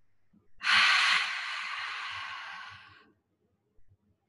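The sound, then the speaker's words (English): One long, deep breath is exhaled through an open mouth, a loud breathy rush that starts strong and gradually fades over a few seconds before stopping. “opening up the mouth, exhale all of the air out.”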